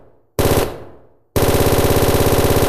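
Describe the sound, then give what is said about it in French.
Gunfire sound effect of robbers opening fire on police: one loud blast that decays, then a sustained stream of rapid automatic fire with an even, fast rhythm. “ces cambrioleurs, au lieu de se rendre, préférèrent ouvrir le feu.”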